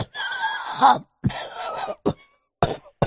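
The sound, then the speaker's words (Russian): An old sage coughs harshly with a terrible wheeze and shortness of breath: a few raspy, strained bursts with short gaps between them, the first long and throaty, the later ones brief. “закашлялся с ужасным хрипом и одышкой”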